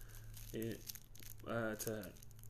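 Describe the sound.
Paper crinkles and rustles faintly as it is shaped by hand into a cone, with soft irregular crackling running through the whole stretch.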